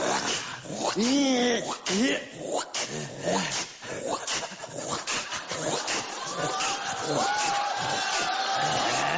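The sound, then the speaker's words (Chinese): A person imitating the family dog with whimpering, yelping, dog-like vocal sounds, loud and repeated, mixed with other voices talking around it. “学我们家狗啊？我们家狗就这样”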